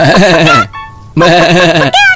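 Loud, wavering goat bleats from a pressed toy, two long bleats separated by a brief high tone, with a third starting at the end.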